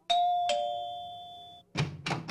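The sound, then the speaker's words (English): A two-note doorbell chime sounds, each bright tone ringing on for more than a second before fading, followed after a brief silence by a few short, noisy bursts. “You're supposed to ring the doorbell”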